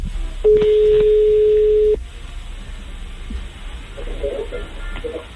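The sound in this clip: A telephone ringing tone sounds on an outgoing call placed during a live radio segment from a café. It is a single steady mid-pitched tone lasting about one and a half seconds over a low background rumble, followed by faint murmur.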